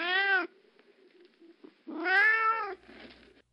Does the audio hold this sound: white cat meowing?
yes